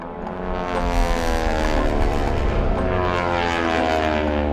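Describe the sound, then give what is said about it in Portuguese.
Propeller airplanes in flight droning steadily as they head south. The deep, harmonic engine hum swells in over the first moment, then holds loud and constant. “Os aviões dirigem-se para sul.”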